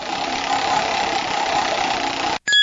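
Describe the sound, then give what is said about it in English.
A toy prize wheel spins with a steady, mid-pitched mechanical whir that holds evenly for over two seconds, cuts off abruptly, then gives way to a brief bright electronic tone. “Would you like to spin the wheel once more?”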